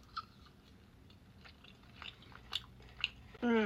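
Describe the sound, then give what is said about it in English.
Someone chews and bites a chilled, refined sugar-free crumble dessert with a fudgy, brownie-like texture, making a few faint, soft crunches over quiet background. “I don't know why it's so much better than the warm one. I can't stop eating this right now.”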